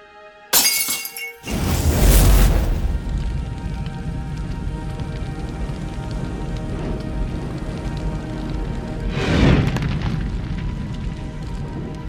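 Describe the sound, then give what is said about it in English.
An oil lamp shatters with a sharp crash of breaking glass near the start. Flames engulfing a house follow as a loud, steady, dense crackling rush that swells again later and keeps going to the end. “The flames from the oil lamp rose quickly, engulfing the house.”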